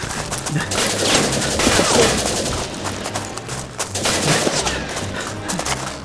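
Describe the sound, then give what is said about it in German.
Rapid gunfire in a shootout, loud and dense, with bursts of shots crowding together almost without pause for the whole stretch. “Sie haben eine Pistole dabei? Ja, warum zum Teufel schießen Sie nicht einfach zurück?”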